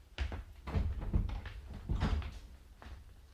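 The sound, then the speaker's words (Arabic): A door being opened, heard as several muffled thuds and wooden rattles spread across a few seconds, with no voices present. “استني انتي انا هفتح له الباب”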